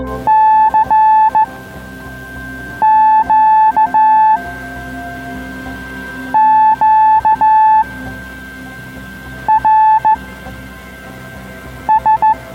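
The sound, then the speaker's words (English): Amateur radio signals on the 80 metre band from a Tuesday evening net: a single steady tone keyed on and off in short bursts, grouped into several clusters with pauses between, over constant static hiss. “If you happen to listen to the right part of the 80 metre band on a Tuesday evening, you might hear something that sounds like this.”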